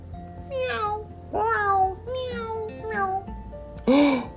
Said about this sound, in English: As she walked in the cave, there was a kitty, like a normal house kitty.